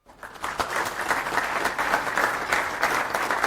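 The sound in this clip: Applause from a conference audience in Brussels welcoming a speaker: a dense, even clatter of many hands that holds steady for a few seconds.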